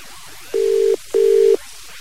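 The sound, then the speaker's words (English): Telephone ringing tone heard on a call placed from a public phone box: two steady, mid-pitched electronic pulses of equal length in quick succession, loud and alone. “I thought the best thing to do is perhaps give Trevor a quick call. But this is what happened on the phone.”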